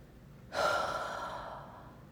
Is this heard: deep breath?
yes

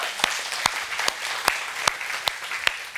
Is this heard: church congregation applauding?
yes

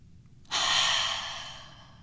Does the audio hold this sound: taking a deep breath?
yes

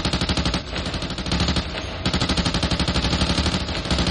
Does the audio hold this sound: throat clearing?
no

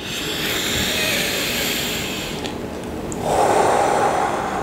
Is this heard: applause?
no

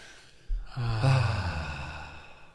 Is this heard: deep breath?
yes

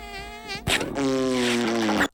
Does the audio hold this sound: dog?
no

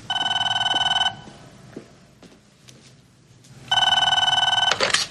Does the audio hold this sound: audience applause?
no

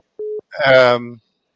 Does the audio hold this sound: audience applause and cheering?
no

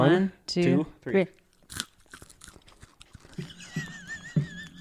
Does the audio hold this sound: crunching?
yes

